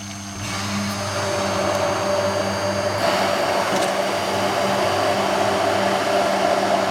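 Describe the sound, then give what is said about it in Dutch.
An electric hand mixer whirs as it blends homemade mayonnaise, a steady, loud motor drone with a high whine that holds without a break throughout. “En dan moet de mixer daarin, dat is eigenlijk dan het enige wat er moet daarin gebeuren.”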